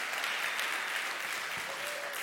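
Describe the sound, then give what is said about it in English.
A church audience applauds with steady, even clapping that continues throughout without a break. “You clap now, but I'm letting you know, I get emotional, I'm loud, I clap.”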